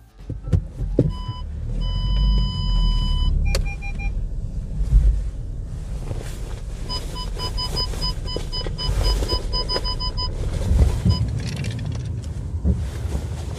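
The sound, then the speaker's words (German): Low, steady road and engine rumble inside a Volkswagen Golf 6 on the move, with high electronic beeping tones sounding in two intermittent stretches over the continuous drone. “Die Hintergrundgeräusche gehören zu einem Golf 6.”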